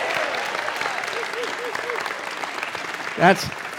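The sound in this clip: A church audience applauding and cheering: dense, steady clapping throughout, with a voice speaking over it and a short, loud whoop near the end.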